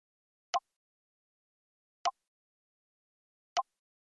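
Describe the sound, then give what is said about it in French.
Three crisp, very short ticks from the VoiceOver screen reader, marking the cursor moving to a new zone or section. They are evenly spaced and isolated in silence. “Lorsque le curseur VoiceOver change de zone ou de section, c'est ce son que vous entendrez.”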